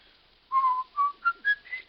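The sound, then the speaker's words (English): A person whistles a short tune alone, clear and moderately loud: a phrase of about six notes that climbs stepwise in pitch. “Why'd you whistle that song so much?”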